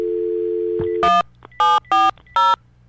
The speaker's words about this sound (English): That was my fault, if I have to dial a 1 or a 0 here. Okay, let's try this again.